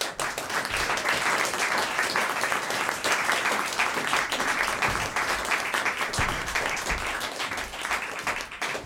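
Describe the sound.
Audience applause welcomes a guest onto the stage at an evening event, a dense, steady wash of many hands clapping that holds at an even loudness for the whole stretch without a break.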